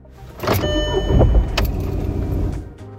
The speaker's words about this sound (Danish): Så er der lyden af, hvordan lyder den, når motoren starter? Den lyder sådan her.